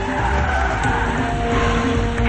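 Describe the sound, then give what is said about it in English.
A car skids to a stop at a blocked tunnel: a loud, continuous tire screech blended with engine roar, holding at an even, harsh level for just over two seconds with no talk. “They skid to a stop.”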